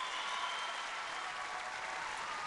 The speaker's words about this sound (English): might take him a little while to handle all the applause, but you can feel it.